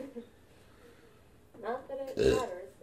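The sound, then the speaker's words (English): A burp after drinking tequila comes as a single loud, low, croaking belch. Brief speech-like sounds come just before it, following a quiet stretch. “It just gives me more drunk through my burps.”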